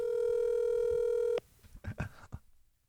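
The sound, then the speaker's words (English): A phone call being placed and ringing, first a steady, loud, high electronic tone holding for over a second before cutting off abruptly, then a few softer clicks and rustles. “My favorite part is when it rings. You just wonder if they're going to answer.”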